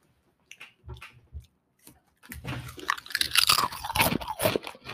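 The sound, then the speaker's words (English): Crunching of spicy taco-flavored crackers: a few soft, separate bites come first, then loud, dense crunchy chewing carries on steadily with no talking. “Spicy crackers. Here you go. Okay, mm-hmm. It's kind of like a... It's a cracker. Let me hold that sucker up there. Oh my gosh, it tastes like taco.”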